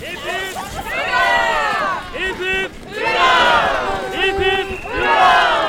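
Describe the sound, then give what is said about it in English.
Loud cheering and shouting from a parade crowd of a couple of thousand happy Norwegians in Longyearbyen, Svalbard, on May 17th. Overlapping voices rise in repeated waves of whooping cries. “I'm walking in a long parade with a couple of thousand extremely happy Norwegians.”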